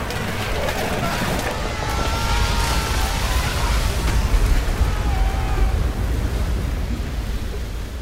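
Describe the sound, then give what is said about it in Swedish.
A gust-of-wind sound effect striking the warship Vasa before it sinks: a loud, dense, rushing roar that holds steady and swells slightly in the middle. “Men så händer det som inte får hända. En liten vindpust. Och sen går allt snabbt.”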